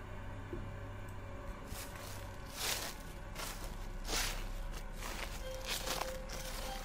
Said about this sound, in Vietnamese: Từ đấy vang lên những tiếng lá cây dẫm loạt xòa loạt xoạt.